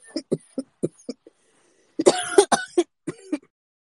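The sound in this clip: Coughing and throat clearing after smoking cannabis: a run of short, light coughs, a brief pause, then a louder, harsher cluster of hacking coughs, heard alone with no talk.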